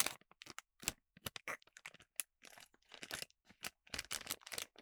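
A crinkly bag of pistachios is torn open with many short, irregular crackling and ripping bursts separated by brief quiet gaps.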